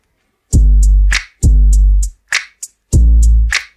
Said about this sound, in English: And then he added some snaps as well.